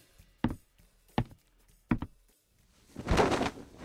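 A few sharp knocks on a wooden floor behind a bar where a hidden trapdoor lies, spaced apart, followed by a longer, rougher scraping and rumbling sound.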